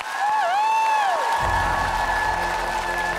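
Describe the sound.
Audience applause after a poetry reading, a sustained dense clapping wash with some cheering that swells in after a brief gliding tonal sound fades.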